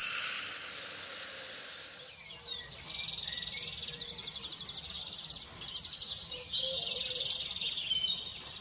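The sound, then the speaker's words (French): Small birds sing in the morning: many quick chirps, twitters and trills, fairly faint and at times overlapping. The song starts after an opening stretch of loud hiss, and no one speaks. “les chants des petits oiseaux m'éveillent et m'émerveillent”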